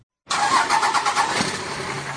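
A diesel truck engine starts abruptly after a brief silence and settles straight into a loud, steady running rumble with a faint rhythmic pulsing that eases slightly toward the end.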